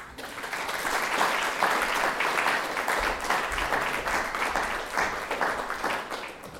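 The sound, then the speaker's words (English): Audience applause welcoming a planetary scientist to give a lecture: many hands clapping in a dense, steady wash that swells slightly and then eases toward the end. “Please join me in giving her a very warm welcome.”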